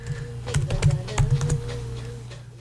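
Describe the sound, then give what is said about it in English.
Computer keyboard typing, a quick run of rapid key clicks and taps that thins out and fades toward the end. “Watch, I type in ayahuasca patterns.”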